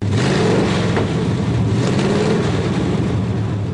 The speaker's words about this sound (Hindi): ये है अमेरिका का पसंदीदा खेल डर्ट ट्रैक रेसिंग, यानी धूल मिट्टी वाले ट्रैक्स पर कारों की रेस।